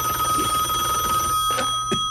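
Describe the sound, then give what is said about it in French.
A telephone bell rings steadily, a continuous bright, high trilling tone that holds at an even level, with no talk over it. “Belle sonnette.”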